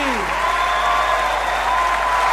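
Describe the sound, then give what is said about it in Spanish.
Audience applause, a dense, steady wash of clapping that holds across the whole short clip, with faint sustained tones and a brief sliding tone near the start. “Aplausos para Lali.”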